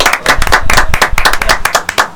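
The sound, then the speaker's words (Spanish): Brisk applause from a small group, many sharp hand claps landing in quick, uneven succession, loud and close throughout with no talk over them. “Un aplauso para el parce.”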